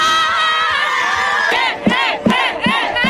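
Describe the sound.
Students cheering loudly as they arrive at the Com sona l'ESO campsite at the Fort Llopis stadium in Gandia. A sustained crowd roar breaks into rhythmic, chant-like shouted bursts.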